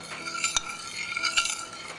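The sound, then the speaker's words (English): Stirring of blintz batter made from flour and liquid: a steady, fairly faint run of utensil scraping and soft clinks with a few sharper knocks, continuing without pause and with no voices. “You always have to keep stirring every time you make a blintzel because you don't want the flour to separate from the liquid mixture.”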